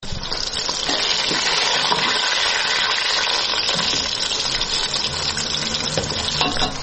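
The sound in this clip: Onions and meat frying in a pot for qorma in a home kitchen in Kabul give a loud, steady sizzling hiss with a dense, even crackle that continues unbroken throughout, with no voices.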